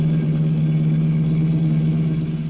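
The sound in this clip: A car engine drones steadily in a low, even hum, loud and unbroken, with no clear rise in revs and no voices.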